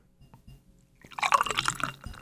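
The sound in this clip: IPA beer being poured: a splashing liquid gush that begins after about a second of near quiet, runs for roughly a second with a fluttering, uneven level, then tapers slightly at the end.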